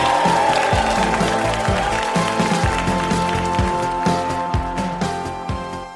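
Audience applause and cheering greet an actress guest at a live game show. Many hands clap in a dense, even patter over dull low thumps, and the sound tapers off slightly at the end.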